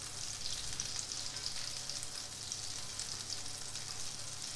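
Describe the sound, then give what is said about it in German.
Butter melts and sizzles in a frying pan with a steady, faint, crackling hiss that runs unbroken throughout, with no voices. “So, Butter geschmolzen. Und jetzt fehlt nur noch eins. Die Teigmasse schütte ich jetzt einfach in die Mitte in die Pfanne.”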